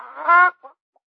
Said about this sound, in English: We got a report on a chicken here. A chicken? Oh, no. No, don't be silly. Just a little chicken. Let me inspect that chicken.